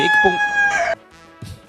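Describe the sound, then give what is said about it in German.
A rooster crows once, a loud, strongly harmonic call lasting about a second, followed by quieter scattered sounds. “Ich habe gehört, dass das unser Hahn war. Unser Geräuschespiel heute.”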